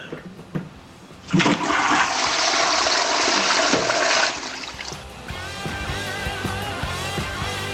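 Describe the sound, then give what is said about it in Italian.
A toilet flushes: after a few faint knocks, a sudden rush of water roars steadily for about three seconds, then subsides into a quieter trickling and gurgling refill. “In quanto stronzo, te tiro lo sciacquone.”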